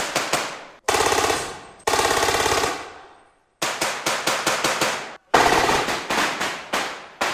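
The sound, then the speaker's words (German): Loud automatic gunfire from a military urban combat demonstration: several bursts of rapid, sharp shots separated by short silences, some fast and continuous, others spaced into distinct cracks, each shot ringing out with a quick decaying tail. “Hier wird der dynamische Häuserkampf jetzt vorgeführt. Und das heißt, es wird laut und es wird geschossen.”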